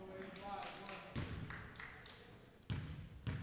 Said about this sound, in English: That's the sound of a bouncing. What's the sound of one ball bouncing?